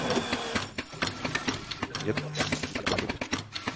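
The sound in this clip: An espresso machine's pump, with the grinder set one step finer than factory setting and a low temperature, runs while brewing espresso as a rhythmic, pulsing buzz and clatter, with a voice partly heard over it.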